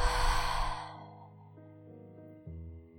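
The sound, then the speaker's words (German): A deep breath is let out through the mouth during a guided breathing exercise. The breathy rush is loud at first and fades after about a second, leaving soft sustained tones underneath. “Atme tief ein und lösen durch den Mund wieder aus.”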